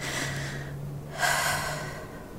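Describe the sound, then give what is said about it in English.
Heavy, ragged breathing from a person catching their breath, with one louder, sharper gasping intake partway through; no speech. “I just need to catch my breath.”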